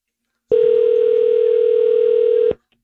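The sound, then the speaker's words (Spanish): A telephone dial tone sounds as a call is about to be dialed: one steady, unbroken hum at a single pitch, loud and even for about two seconds before it cuts off abruptly. “Marcando.”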